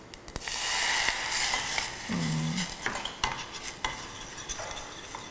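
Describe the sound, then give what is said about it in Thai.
Stirring and simmering of a sauce in a pan: a steady wet scrape and soft bubbling sizzle run throughout, with a few sharper clinks of the utensil against the pan toward the end. “เราเคี่ยวด้วยกันก่อนสักพักหนึ่งนะครับ”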